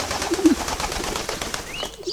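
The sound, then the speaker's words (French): A pigeon cooing in a park: a few soft, low coos rise briefly above a steady bed of outdoor background noise. “Mais le pigeon s'envole.”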